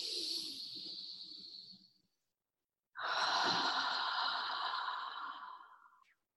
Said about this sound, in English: Deep breath in.